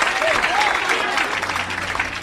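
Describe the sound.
A church audience applauding after a call to praise God, thick, loud clapping from many people that runs the whole way, with a voice or two briefly calling out over it early on.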